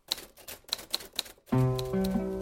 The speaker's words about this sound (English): Well, that's the status, so to speak, of my life with my beloved typewriter.